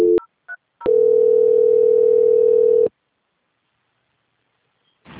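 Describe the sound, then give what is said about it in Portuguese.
Telephone tones during a call transfer: a brief tone, two short beeps, then a loud, steady tone of about two seconds, followed by silence and the start of another tone at the very end. “Só aguardar em linha que eu vou transferir aqui para o senhor. Ok. Transferência.”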